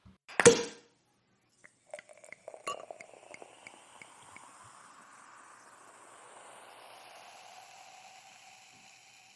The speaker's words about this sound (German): Insofern Flasche auf und rein gucken und riechen.